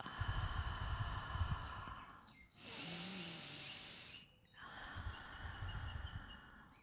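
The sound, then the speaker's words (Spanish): A deep breath during a guided yoga nidra relaxation exercise: one long, airy rush of breath in the middle, set apart by brief quiet gaps from steady, soft humming tones that run before and after it. “Lo hago dos veces más. Inhalo profundo. Exhalo.”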